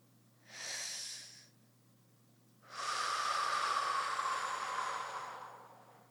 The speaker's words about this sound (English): take your last big, deep cleansing breath.